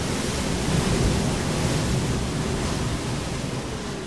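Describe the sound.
Ocean waves roll in as a loud, steady roar of surf, a dense rushing wash with no distinct separate breakers and no voices.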